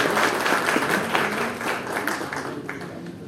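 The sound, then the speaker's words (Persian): Audience applause at an official gathering in Hamadan province. Dense, steady clapping runs through the whole stretch and eases off slightly toward the end. “استدعا میکنم ایشون رو تشویق بفرمایید.”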